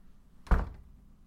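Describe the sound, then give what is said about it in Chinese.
A door being pushed shut lands as one dull, low thunk with a short resonant tail, standing alone against a quiet background. “进来，把门关上”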